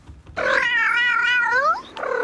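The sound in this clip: A stray cat living on the grounds of a maternity hospital gives a long, drawn-out, fairly loud meow that bends downward at the end, and a second meow begins right after it.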